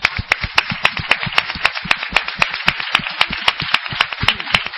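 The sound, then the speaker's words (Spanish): An audience claps for a show's tenth anniversary, a fast, even rhythm of many sharp, loud claps struck together in time. “Así que, por favor, 10º aniversario. Un aplauso para todos ustedes.”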